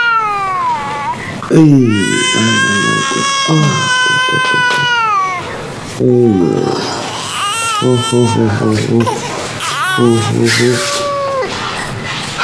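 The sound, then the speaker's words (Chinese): A baby cries after being picked up, with loud, wavering wails in long bursts whose pitch bends up and down. An adult voice talks alongside the crying. “我一抱上来就给哭了。”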